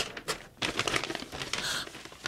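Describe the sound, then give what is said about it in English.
Paper crinkling and tearing as an envelope is opened: a run of quick, rustling and crackling bursts at moderate volume, with no voices. “Here, Jody, open this envelope. What's in it?”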